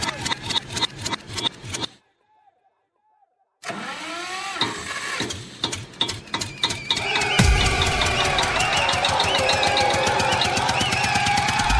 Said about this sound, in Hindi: चालू कर जनरेटर।